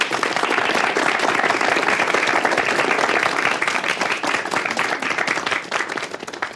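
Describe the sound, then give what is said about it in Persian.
An audience in a theatre class applauds a performance with dense, continuous clapping from many hands. The applause stays loud and steady throughout and thins slightly toward the end. “اولش خوب نبود ولی بعدش بهتر شد. دست بزنیم بهش.”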